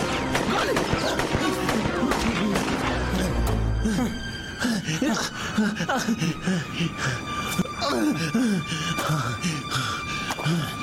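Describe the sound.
Gunshot effect in a radio drama: a sharp, loud crack with a heavy low boom near the middle, set among tense dramatic voices and a few other brief impacts.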